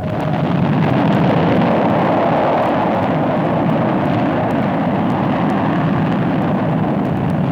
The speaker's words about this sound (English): Shuttle requests clearance for rocket ignitions. Stabilize attitude 3 degrees. Attitude corrected. Hold. Fire!